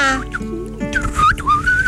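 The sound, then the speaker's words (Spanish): A person's thin, feeble whistle with wavering, sliding pitch, brief and uneven, over a low steady hum. “Ahí está muy chafita tu chiflido.”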